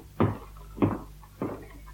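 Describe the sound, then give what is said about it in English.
Footsteps coming up the steps: three dull, low thuds at an even pace, fairly quiet and alone. “Shh, I can hear him coming up the steps.”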